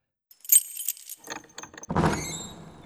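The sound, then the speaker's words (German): A key jingles and clicks into a lock, then a fuller rushing sound follows as small gates swing open. The whole sequence is quiet, with no voices. “Sie brauchten den Schlüssel nur in das Schloss zu stecken, schon bewegten sich die kleinen Tore.”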